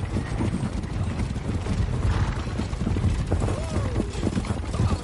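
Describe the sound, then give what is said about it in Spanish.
Hooves clip-clop and wheels rumble as a horse-drawn stagecoach comes round a bend and crosses a pine-flanked mountain pass, a steady, busy clatter with a voice speaking over it. “La diligencia llega tras una curva y cruza el paso.”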